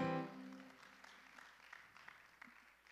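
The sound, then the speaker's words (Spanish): Faint applause comes from a church audience for the worship team. A soft, scattered patter of many hands follows a brief voice at the start and stays low and even to the end. “Can we give our worship team a big hand? Aren't they amazing?”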